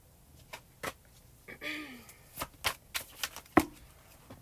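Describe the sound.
Tarot cards being shuffled by hand, quiet, with several crisp snaps and flicks spaced apart and one short riffling burst near the start, heard alone without talk.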